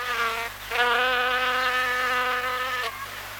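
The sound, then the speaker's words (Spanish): An insect buzzing sound effect, a steady, loud, reedy whine with a strong droning hum that runs continuously with only a brief dip early on, no voices. “¿Pero qué es eso? ¿Acaso no pidió un ruido de insecto?”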